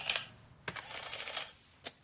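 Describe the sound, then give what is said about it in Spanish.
Faint key clicks from typing on a receipt printing machine in an office, a few louder taps standing out from a soft, continuous patter of keystrokes. “Skyler teclea en una máquina de tickets.”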